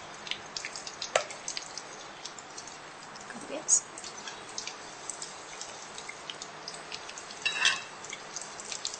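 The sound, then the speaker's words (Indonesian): Food sizzling in hot oil as it is turned over in the pan: a steady, busy crackle with scattered sharper pops, fairly faint throughout. “Minyak dia sudah panas, cepat dia, kita balik-balikkan ya.”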